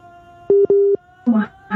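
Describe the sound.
Telephone busy signal after the caller has hung up: two steady, mid-pitched beeps, the second longer, followed by a brief stretch of talk.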